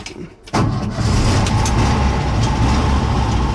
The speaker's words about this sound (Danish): Så må vi se om jeg gir Folkevognmotor. Ja, ja så det hopper og går.